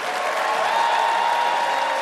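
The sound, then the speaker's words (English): Audience at a tribute ceremony applauding, a dense, even wash of many hands clapping that holds steady and loud from start to finish. “The audience applauds and sits.”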